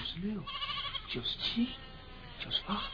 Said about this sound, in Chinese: 阿山急忙招呼着小羊准备回家，他伸长了脖子数着，